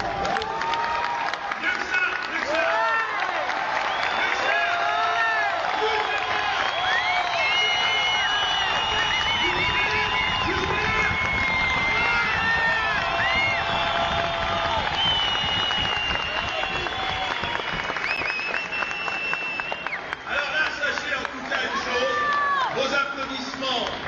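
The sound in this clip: An audience applauds and cheers at an award ceremony, with loud, continuous clapping mixed with whoops and shouting voices that carry on strongly for over twenty seconds.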